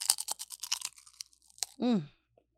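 Crisp crunching of cannabis-infused shrimp chips being bitten and chewed: a rapid run of sharp crunches, then a few sparse ones, followed by a short hummed vocal sound.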